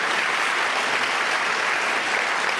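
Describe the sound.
An audience applauds a speaker with dense, steady clapping that holds at an even, fairly loud level throughout, with no voices rising above it.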